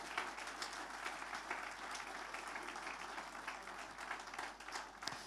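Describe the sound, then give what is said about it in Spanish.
Applause of praise from an audience during an evening church service: dense, steady clapping that continues throughout, fairly faint and even in level, with no clear voices over it. “Fuerte ese aplauso de alabanza al Señor.”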